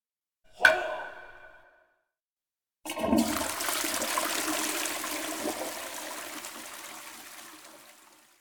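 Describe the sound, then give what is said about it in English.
A broken toilet flushes and will not stop running, a loud continuous rush of water that fades slowly without ending; a brief sharp knock comes first, then a short silence. “トイレが壊れました。 水が流れませんか？ いいえ、水が止まりません。”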